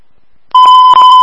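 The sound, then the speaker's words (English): An electronic alarm sounds, starting abruptly after near silence and holding one loud, steady, high beeping pitch to the end, with a brief dip partway through. “Probably that's the alarm.”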